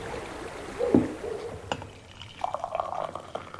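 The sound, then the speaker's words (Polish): Soft mountain well water poured out, a faint splash near the start followed later by quiet trickling and bubbling that comes and goes, all low in level with no voices. “Górska miękka woda. Tak, to jest nasza woda ze studni.”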